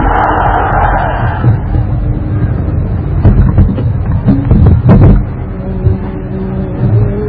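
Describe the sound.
A crowd at a religious rally shouts back in response to a takbir call: a loud, massed roar of voices, sustained across the whole stretch, with some swells and bursts along the way.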